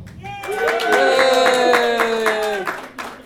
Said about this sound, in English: Hey, I've got applause.